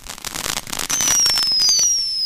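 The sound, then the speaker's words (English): Fireworks set off electrically by a phone-controlled firing device start with a burst of dense crackling. A loud, steady hiss follows, with a high whistling tone that drifts slightly downward. “Connect fireworks to igniter cables and then snap the igniter clip into the firing device. An app tells the device to send an electric current through the wires, causing them to heat up and then...”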